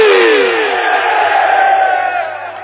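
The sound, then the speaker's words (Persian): A crowd lets out a loud, drawn-out Heydari battle cry of "Ya Ali" as one long shout that starts strong and slowly fades away. “یه نعره حیدری بزن علی”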